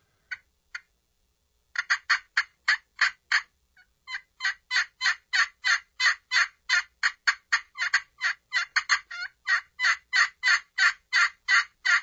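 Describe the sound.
Raspy yelping from a hand-operated friction turkey call. A long series of short, evenly paced yelps comes in runs separated by brief pauses. It is loud and clear, with no voices.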